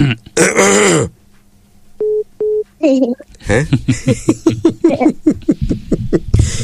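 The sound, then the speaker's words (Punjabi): A person coughs on request: a single harsh, loud cough burst, then two short electronic beeps, followed by people talking. “ਬੜੀ nice ਖਾਂਸੀ ਆ ਤੁਹਾਡੀ”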